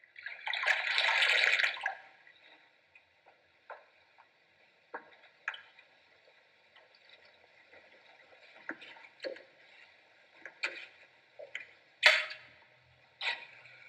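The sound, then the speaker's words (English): Hands are washed under a running tap: a rushing burst of water for about two seconds, then quiet broken by a series of small splashes and drips. “In case you've never done it, this is known as washing your hands.”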